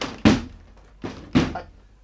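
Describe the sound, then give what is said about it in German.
Three heavy wooden thuds come from someone pushing against a stuck door. The first and last knocks are loudest, with a softer bump between them, each dying away quickly with no voices. “Ich stumpf die Tür ganz einfach mal auf.”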